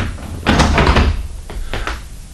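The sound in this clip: A door is opened with a cluster of loud thuds and clatters, followed by a couple of shorter knocks.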